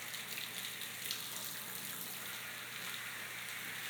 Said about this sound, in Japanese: まずはしっかり泡を流して、毛穴にシャンプーが残らないように軽く手を動かしますね。